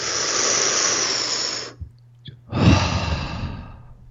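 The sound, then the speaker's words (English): Deep breath drawn during a group breathing exercise: a long, loud, airy breath lasting well over a second, a brief pause, then a second strong breath that slowly fades, with no talking. “Let's take another deep breath. And I'm going to give you another one, and I want you to compare before, after, just like we did before. Ready? Deep breath in again, everybody, please.”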